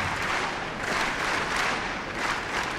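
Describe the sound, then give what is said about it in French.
A tennis crowd claps in rhythm to encourage the Czech player during her service game, a loud, sustained run of clapping with no talk over it. “Et le public qui met du rythme, vous l'entendez, qui encourage la Tchèque.”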